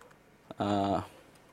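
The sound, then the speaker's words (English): Someone types on a computer keyboard during a live software demo, making faint, quick key clicks, interrupted midway by a brief hummed vocal sound before the soft tapping resumes. “Sorry, it's hard to type and speak and think all at once.”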